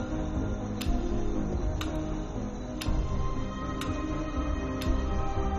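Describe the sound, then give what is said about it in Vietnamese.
A clock ticks once per second in a quiet hospital room at night, with five sharp, faint ticks evenly spaced over a steady low hiss. “Âm thanh của đồng hồ đang nhảy từng giây một.”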